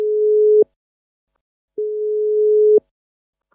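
Telephone tone while calling someone: steady, loud electronic beeps at one low pitch, the second beep longer than the first, separated by silence, with another beginning just as it ends.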